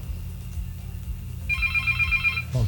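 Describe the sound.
A telephone rings once in a single bright, warbling burst of about a second, over constant low rumbling background noise.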